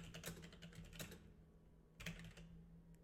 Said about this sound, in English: I type Nintendo Power give and then it goes Dragon Warrior Nintendo Power giveaway.